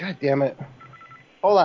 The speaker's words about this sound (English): Hold on. I got my phone just rang. Did you hear that? Yeah, that's my phone on my side.